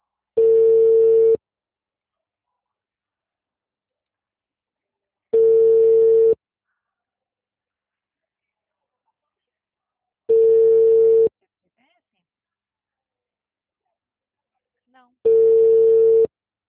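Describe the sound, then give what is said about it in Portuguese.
Ringback tone of an outgoing telephone call waiting to be answered: four steady, medium-pitched beeps, each about a second long, separated by roughly four seconds of silence. “Tá chamando, espera ele atender.”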